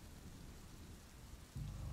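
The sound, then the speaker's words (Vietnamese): Heavy rain pours steadily on a stormy night, with thunder. A dense, even hiss is joined near the end by a low rumble of thunder that swells and holds. “Xóm nghèo huyện Long Xuyên, trong đêm mưa tầm tã, sấm chớp ì đùng”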